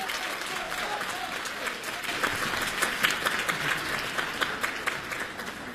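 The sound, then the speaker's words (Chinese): Audience applause welcoming two performers onto the stage at a comedy show, a dense steady wash of clapping that swells slightly midway and stays loud throughout, with no talk over it. “我们掌声有请。 有请二位。”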